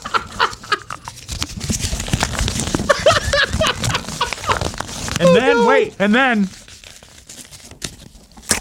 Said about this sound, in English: Imagine this crinkled piece of paper is foil.